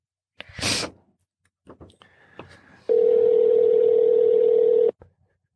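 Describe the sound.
A telephone call is dialed: a brief breathy burst and a few clicks and short beeps, then a single loud, steady tone that holds for about two seconds before cutting off.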